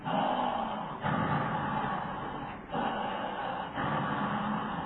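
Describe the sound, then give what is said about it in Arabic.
A voice imitates the labored breathing of obstructive airway disease, with prolonged expiration: a few long, noisy, rasping breaths at steady loudness, each separated by a brief gap. “ليه الاكسبيريشن برولونج؟ بتقول له لانه اصبح اكتف زي الانسبيريشن. فتلاقي المريض بص بيعمل ازاي؟ النفس بتاعه كده اهو.”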